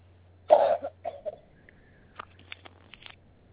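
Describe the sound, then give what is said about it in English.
A single sharp, fairly loud cough, followed by a few fainter short noises. “I thought you took the break for a cough and then were finishing up.”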